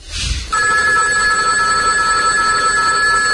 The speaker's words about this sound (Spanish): Levanta ese teléfono.